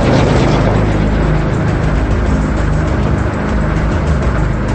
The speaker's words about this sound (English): He drives on, his red taillights shining ominously in the darkness.